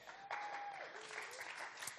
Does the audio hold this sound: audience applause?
yes